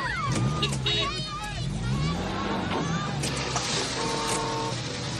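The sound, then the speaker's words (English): Cars starting and driving off as costumed partygoers flee a house, with whining engine tones sweeping up and down beneath a busy babble of voices and commotion. “Costumed partygoers flee the house and drive off.”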